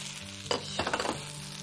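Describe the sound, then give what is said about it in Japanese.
Potatoes stir-fried with green pepper and red paprika sizzle steadily in a hot pan, with a couple of quick stirring scrapes rising briefly over the constant frying hiss. “じゃがいもが透き通ってきましたら、ここにピーマンと赤パプリカを入れてさらに炒めます。”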